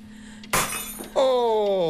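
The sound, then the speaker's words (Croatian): A drinking glass shatters in one sharp, loud crash, followed shortly by a voice. “Razbijena čaša, Margarita, donosi sreću.”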